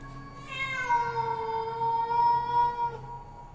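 A black cat gives one long, eerie yowl. It starts higher, then settles into a sustained, wavering tone before fading out.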